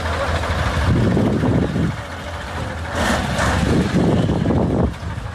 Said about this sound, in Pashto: دا د اورزګان او کندهار د لیلاري پر سر غټ موټرونه دي چې د کوچنی موټرو سره مرسته کوي ترڅو لوړو او ژورو یې تیر کړي او د خټو یې راوړي.